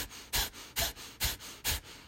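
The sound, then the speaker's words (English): Forceful rhythmic exhales from a breathing exercise: four sharp, breathy bursts evenly spaced about half a second apart, each followed by a softer, quicker passive inhale, with no talking. “So you're forcing exhale very solid, kind of like, you know, very forceful exhales, very solid exhales, and the inhales is happening between those exhales,”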